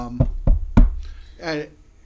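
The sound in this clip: Knocking on fake wood: three quick, sharp raps in a row, followed by a short stretch of voice.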